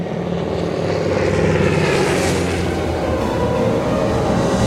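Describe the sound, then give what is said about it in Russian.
A propeller airplane flies over barracks with a loud, continuous engine drone, its rich, buzzing hum holding steady throughout with no voices. “Самолет летит над казармами.”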